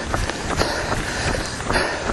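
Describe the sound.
Rhythmic footfalls of a runner about 9.6 miles into a 12-mile training run. Many evenly spaced, soft steps repeat at a steady pace over a continuous background noise.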